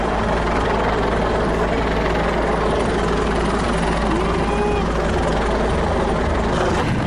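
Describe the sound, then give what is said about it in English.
A police helicopter flying overhead above a crowd: a loud, steady, dense roar of rotor and engine fills the whole clip without a break. “And a helicopter is over us now, and I can clearly see that it says police on the side of the helicopter.”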